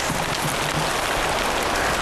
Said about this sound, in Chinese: 等等，下雨了